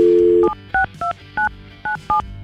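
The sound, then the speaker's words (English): A telephone dial tone cuts off, followed by six short, evenly spaced touch-tone beeps as a phone number is keyed in, loud and clear with no voices. “we're going to call her, find out her side of the story because he gave us her phone number.”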